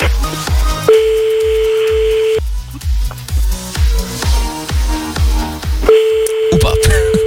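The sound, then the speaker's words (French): Telephone ringback tones sound on a call placed live that ends at an answering machine. Two long, steady, loud rings are heard, with a rhythmic musical beat pulsing underneath and between them. “Bon, on appelle un autre, c'est pas grave, c'est le répondeur, tant pis.”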